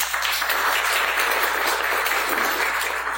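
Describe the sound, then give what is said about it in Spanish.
An audience at a university faculty event applauds, a dense, sustained wash of clapping that holds at a steady level throughout. “doctora Astrid Ríos, aplauso para ella”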